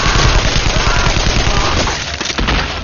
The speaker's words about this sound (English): Rapid fires. That has to be them.